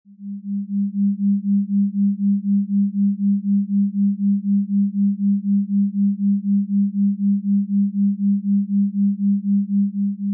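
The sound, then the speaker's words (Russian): Binaural beats from two slightly different low pure tones heard together, making a steady hum that swells and fades in many evenly spaced pulses for the whole stretch, with no other sound. “Вы слышите, что появились биения, которых нет ни в правом канале, ни в левом. Эти биения, именуемые еще бинауральными биениями,”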